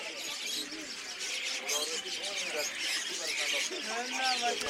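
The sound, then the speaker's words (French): Birds at the bird market in Kabul: a dense, constant mix of chirps, tweets and pigeon coos, many calls overlapping at an even level throughout. “En direct du marché de Kutcheik au Flashy, le marché aux oiseaux de Kaboul.”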